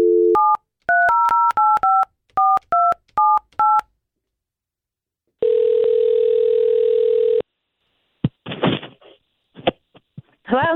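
Touch-tone phone dialing for a call: a quick run of short dual-tone beeps in clustered bursts, then a single long steady ringing tone, followed by a few sharp clicks and brief scraps of noise.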